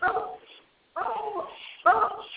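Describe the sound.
A dog barks during a phone call: three rough, muffled barks with narrow, tinny sound, the last one loudest.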